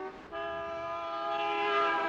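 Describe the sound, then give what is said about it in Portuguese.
A car horn blares in one long, steady, unbroken tone, loud throughout. The car is in bad repair, and its horn is the only part that works. “A única coisa que funciona nessa porcaria é a buzina.”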